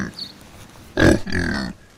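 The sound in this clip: Pigs grunting on a farm, fed on food scraps: one short, low, rough grunt followed by a longer, buzzier grunt, over faint background noise.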